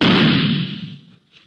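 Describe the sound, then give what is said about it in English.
A gun fired into a pillow gives one muffled, heavy boom that fades away over about a second, followed by near silence. “You stick a gun into a pillow or something else soft and... Well, listen.”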